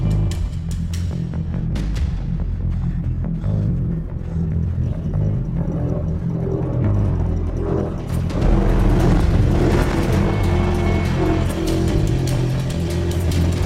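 A car engine running, a low continuous rumble with a rough throaty edge that holds steady, then swells louder and busier partway through.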